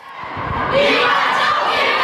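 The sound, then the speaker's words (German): Children shouting a rallying call in unison with guests and ensemble members of a theatre audio walk through the Veddel district. A loud group shout swells up and holds, with voices blending into a dense crowd roar. “Niemals aufgeben, rufen hier Kinder von der Vettel zusammen mit 15 Gästen mit Kopfhörern, Ensemblemitgliedern des Schauspielhauses. Das ist der Sound dieser ungewöhnlichen Stadttour.”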